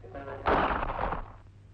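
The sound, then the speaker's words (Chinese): A single pistol shot in an audio drama lands as one heavy, booming crack that decays into a rumbling tail over about a second. “子弹穿透了罗蒙诺的心脏，就这样一声不响地倒下了。”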